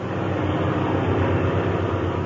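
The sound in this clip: Aircraft engine droning as a plane cruises at 5,000 feet: a loud, unbroken low rumble with a faint steady throbbing pulse and a broad hiss layered above it.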